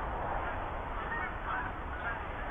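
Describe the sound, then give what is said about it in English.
Geese honking as a flock of about twelve takes off from a cornfield, faint overlapping calls blended into a steady rushing background. “There's another 12 geese taking off,”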